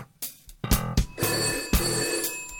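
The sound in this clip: A telephone bell rings for an incoming call: a loud, steady metallic ringing broken by a few sharper strikes, with no voices over it.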